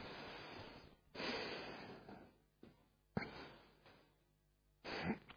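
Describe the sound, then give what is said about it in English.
Slow, deep breaths taken with eyes closed to relax the body: a few long, airy inhales and exhales that swell and fade, separated by quiet pauses. “I just breathe in some nice, sensuous breaths. I call them sensuous, I don't know what other word to describe. Just beautiful, delightful breaths, just to invigorate my body.”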